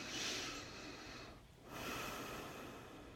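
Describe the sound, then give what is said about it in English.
A slow, deep breath in and then out during a guided breathing exercise. It is a soft, breathy rush of air, with a brief dip between the inhale and the exhale, quiet and alone. “just a regular deep breath in and out”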